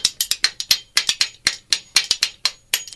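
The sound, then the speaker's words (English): Two matching spoons are played as percussion, knocked together in a fast, steady stream of many sharp clacking hits with a loping rhythm like a train. “now I said to your sound mixer there, tell me if the spoons are too loud. That sounds better for the train,”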